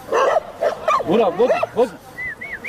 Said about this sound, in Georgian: აქ 10 წელზე მეტია 30-მდე ძაღლი ბინადრობს.